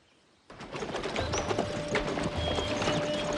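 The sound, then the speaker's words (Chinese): Hooves clip-clop steadily as a horse-drawn carriage moves with a procession across grassland. The dense, continuous run of hoof beats starts abruptly after a moment of quiet and carries on loudly to the end. “草原上，一支队伍正在行进，队中有一辆马车。”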